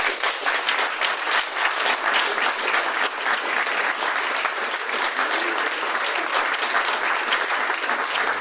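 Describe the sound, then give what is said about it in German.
An audience applauds the cast and crew of a film project with dense, steady clapping that holds an even level for about eight seconds. “begrüßen Sie mit mir alle gemeinsam die Mitwirkenden des Filmprojekts, die Schauspielerinnen und Schauspieler, die ganze Crew mit einem herzlichen Applaus.”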